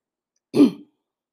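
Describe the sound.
One brief throat clearing, a short gruff rasp heard alone in silence, comes from a person leading a full moon energy session.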